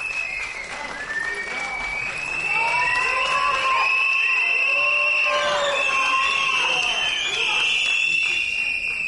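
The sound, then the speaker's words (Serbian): Piercing whistles and crowd noise from a theatre audience in Serbia voicing disapproval. Shrill, gliding whistles overlap continuously above a loud, steady wash of noise that swells after the opening seconds. “Ovo negodovanje govori samo za sebe.”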